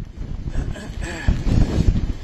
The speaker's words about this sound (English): the wind is really pummeling us right now